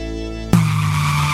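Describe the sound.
A car brakes hard and its tires skid. A steady tone runs for half a second, then a loud, abrupt squeal of rubber starts and holds to the end.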